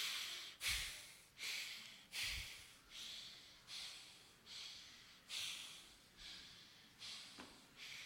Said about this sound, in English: Breathe through your nose, through your mouth, fast, slow, to the chest, to the navel. Full three-part breath.